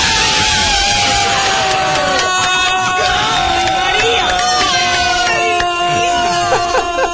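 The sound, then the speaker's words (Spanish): A stadium crowd roars and shouts after a late extra-time goal at a football match, with loud bellowing voices rising over a continuous dense wall of cheering. “Hay gritos por doquier detrás. La gente se salía de la vaina.”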